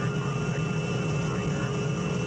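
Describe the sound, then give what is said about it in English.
Continuous engine drone of an aircraft in flight as it approaches to land, a dense, even roar with a low rumble that holds steady throughout. “Your attention, please. We will soon be landing at Westworld, the ultimate resort.”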